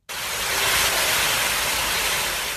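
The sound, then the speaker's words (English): Rushing flood water fills a city street in London during torrential June rain, a loud, dense, steady roar of churning water that starts abruptly and continues evenly throughout. “That's the sound of flooding in London in June 2016”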